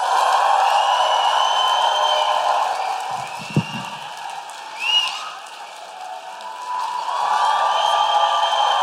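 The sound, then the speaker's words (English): An audience claps and woo-hoos to welcome an opera singer at a live show at the Coliseum, a sustained wash of applause with whooping voices that dips slightly midway before swelling again. “Please put your hands together and make an enormous Guilty Feminist woo-hooing operatic welcome for Nadine Benjamin!”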